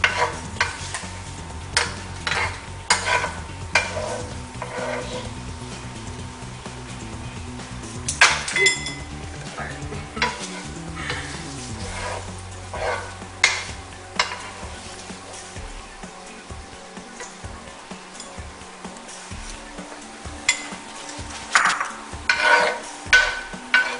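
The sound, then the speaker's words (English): Sage, herbs and garlic crackle and sizzle in a pot of hot oil as they are lifted out, with scraping stirs and several sharp metallic clinks. The frying hiss is busier early on and thins toward the end. “My sage is looking crispy. So I think it's time to go ahead and remove all of my herbs and my garlic. So now I'm going to remove everything that's in this pot.”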